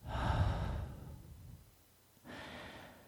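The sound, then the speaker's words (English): A person exhaling in a long, breathy sigh that fades out, followed after a short pause by a second, softer breath. “I'm going to take an exhale. Hang on.”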